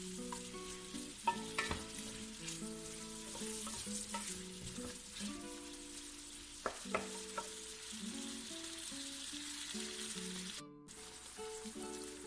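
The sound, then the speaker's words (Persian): Meat and onions sizzle and fry in a pan, a steady crackling hiss that holds at a moderate level throughout with no talking. “این کار رو حدود 1 رو انجام میدیم، تفت میدیم تا گوشتمون مزه‌دار بشه و بوی زخمش از بین بره.”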